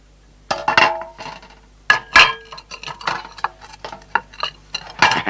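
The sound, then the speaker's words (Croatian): Metal pots clanking and clinking as they are packed into a chest, with a few loud knocks and rattles scattered irregularly between quieter clattering. “Ti brzo u sanduk lonce.”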